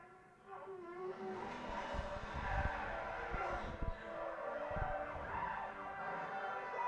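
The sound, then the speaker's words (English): Car tyres skid and squeal as a car does donuts, with a sustained, loud screech and engine noise running through the whole clip and a few low thumps along the way. “Stop doing donuts.”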